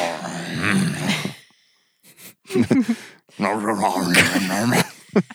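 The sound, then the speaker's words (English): A person's voice imitates Bigfoot breathing with rough, snorting, snore-like exhales. They come in a few raspy bursts, broken by a short silent pause. “That's what Bigfoot sounds like. Just under his breath.”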